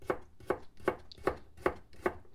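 Knife chopping food on a board during home cooking: six evenly spaced, faint thuds at a slow, steady rhythm, with nothing else heard.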